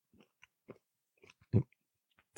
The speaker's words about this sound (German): Im Podcast essen, ich weiß gar nicht, ob man das darf. Gehört das zur Podcast-Etikette, dass man da futtert beim Reden?